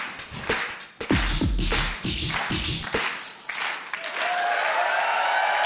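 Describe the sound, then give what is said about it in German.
Applause closing a Ladies' Night show: a few sharp, separate knocks and claps at first, then a softer, steady wash of clapping that carries on to the end. “Applaus.”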